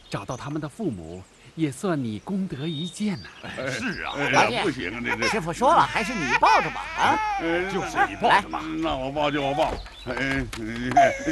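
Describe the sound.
A baby cries in high, wavering wails, held by a monk after being found on the road; the cries come in fits and are mixed with voices talking over them.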